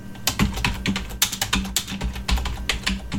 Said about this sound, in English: Okay, so if I type in an author's name, for example, Dean R. Koontz, he's a guy that writes crime and a bit of paranormal and thrillers, I will see what he brings up.